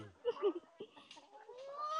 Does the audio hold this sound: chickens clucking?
yes